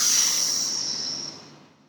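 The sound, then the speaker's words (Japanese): A long breathy exhale through the mouth after a deep belly breath in a relaxation exercise, a steady airy hiss that slowly fades out. “腹式で息を吸って口からいらないものを全部で解放するつもりで”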